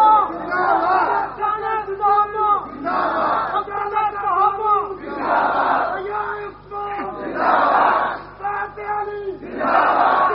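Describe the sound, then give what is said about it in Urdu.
A crowd chants religious slogans in loud unison, shouted phrases repeating in a steady rhythm of many short bursts with brief gaps between them. “صحابہ دے نعرے بہتے مارو، صحابہ دے نعرے، صحابہ دے نعرے”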